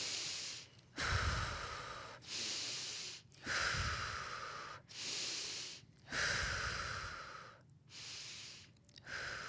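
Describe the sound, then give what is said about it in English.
A person demonstrates connected breathing, drawing deep inhales and releasing exhales that lead straight into the next breath. The long, airy breaths follow one another in a steady rhythm with only brief gaps, and they are faint and unaccompanied. “when you take a deep breath in and you let it fill up your entire body and then you exhale, as soon as you let that exhale out, you bring the breath right back in.”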